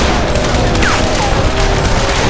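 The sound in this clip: Gunfire from a street barricade during a firefight: dense, rapid shots overlap into a steady, loud crackle that continues for the whole stretch with no pause.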